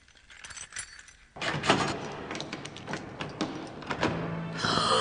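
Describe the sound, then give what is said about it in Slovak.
Keys jangle lightly, then louder metallic clanks, clicks and rattling follow as a door is unlocked and opened, in an irregular series of sharp sounds, with no voices. “Nakoniec jej nedalo a otvorila dvere, lebo predtým videla, kam Víťazko kľúče schoval.”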